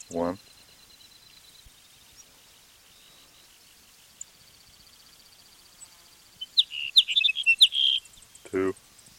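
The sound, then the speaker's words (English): Sage sparrow song: thin, faint high notes early on, then a louder burst of quick, high chirping notes near the end, with brief human voices at the start and close. “It's Sage Sparrow number 2.”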